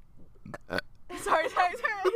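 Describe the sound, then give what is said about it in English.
A person burps in a couple of short, rough bursts, then the same voice carries on with vocal sounds. “so sorry. I had a burp.”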